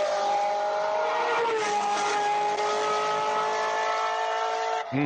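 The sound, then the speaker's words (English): Ferrari race car engine screams around a racetrack with a loud, sustained, high-revving roar and bright harmonic whine. Its pitch dips slightly after the first second and a half, and a brief sharp change comes at the very end. “play the sound of the Ferrari going around a racetrack so the people know what I'm talking about.”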